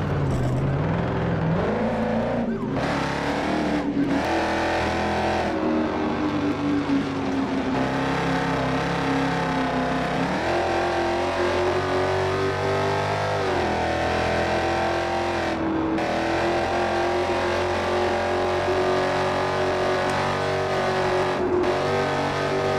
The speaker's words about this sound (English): Better pull that damn vehicle over right now!